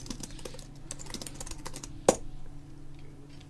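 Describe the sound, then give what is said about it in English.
Rapid typing on a computer keyboard running hotel reservation software at a check-in desk: many soft key clicks in an uneven stream over a steady low hum, with one sharper, louder keystroke partway through. “This is just a lady wearing her headphones, typing on her hotel reservation software.”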